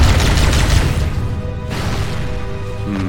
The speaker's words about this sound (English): I got 4 grenades, but I'm stuck in the tunnels. I'm gonna use a plasma pistol. Bang. Bang.